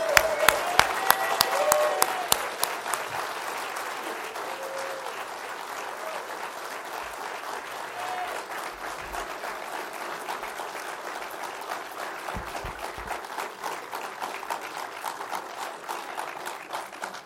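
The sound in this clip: Church audience at Hiram First Baptist Church applauds to welcome a guest preacher. Several sharp claps open the dense, sustained applause, which holds at a steady level for the whole stretch.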